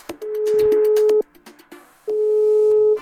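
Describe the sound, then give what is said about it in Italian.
Telephone tone on an outgoing call: two steady, mid-pitched beeps of about a second each, separated by a one-second gap, loud and alone, with faint clicks before and between them. “Beh, adesso io vorrei fare una telefonata. Sentiamo.”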